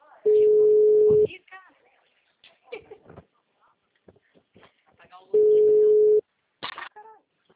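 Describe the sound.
A telephone tone sounds after a dropped call: two long, steady, mid-pitched bursts of the tone, one near the start and one near the end. Between them a person talks in short, broken phrases.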